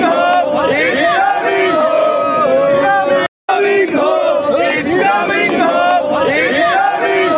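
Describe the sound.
Indian football fans chant in unison to welcome the England national team in Doha. The crowd is loud and dense, its voices rising and falling in a rough sung melody, with one brief silent break partway through.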